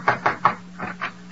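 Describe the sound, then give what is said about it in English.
Someone knocks on a door: a quick run of three sharp raps, a short pause, then a couple more knocks, all over a low steady hum. “Somebody knock.”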